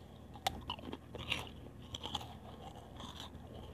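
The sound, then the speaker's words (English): Crunchy biting and chewing of food by a person eating, with a few sharp crunches spread through a soft, steady background, faint overall. “I'm going to stop eating. You can actually hear me.”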